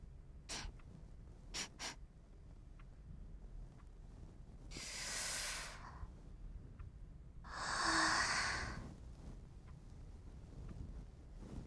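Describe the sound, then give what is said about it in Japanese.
Breathy, drawn-out sniffing as someone smells a customer up close: two long inhaling sniffs, soft and airy, with quiet gaps between them and no talking. “そうだ、もう一度お客様の匂いを。失礼します。”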